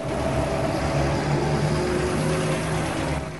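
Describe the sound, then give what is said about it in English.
Two army trucks driving through a village give a continuous low engine rumble with a droning hum, steady and fairly loud for the whole stretch, with no talk. “two army trucks drive through the village.”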